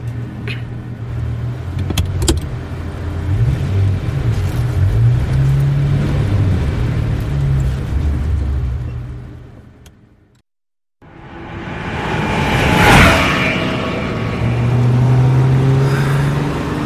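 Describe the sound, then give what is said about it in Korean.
A Ferrari pulls away from a rising parking barrier. A steady engine drone cuts out briefly, then returns with a revving surge before settling. “차단기가 올라갑니다. 와. 자, 카드 받아. 출발할게.”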